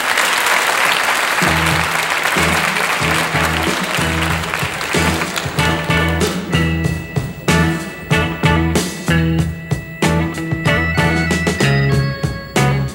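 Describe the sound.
Audience applause welcoming a rock band onto the stage: dense, steady clapping that thins into scattered claps as the band's instruments start up underneath with a repeating low bass pattern.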